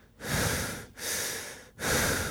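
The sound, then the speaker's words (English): Loud, close breathing into a microphone: three long, airy breaths in a row, each a broad rushing hiss separated by brief gaps, with no talking. “I always find myself like trying to stop myself from breathing because otherwise I sound like this.”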